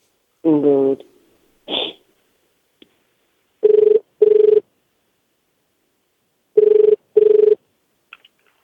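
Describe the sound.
A telephone call rings through, heard as two pairs of short, even ringback tones with a gap between the pairs; a voice sounds briefly at the start.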